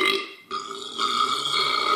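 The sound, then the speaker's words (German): A man burps loudly while eating: a long, rough, voiced belch that lasts about two seconds, briefly broken near the start, then droning on at steady strength. “Ist ja beeindruckend heftig, wie der das macht und wie der rülpst.”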